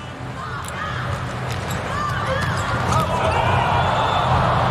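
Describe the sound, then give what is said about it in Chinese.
A volleyball serve during a match between Poland and the United States, struck and landing in the court for a point: a few faint, sharp ball impacts over steady crowd noise and a commentator's voice. “界内， 弗纳尔的第二次发球得分。”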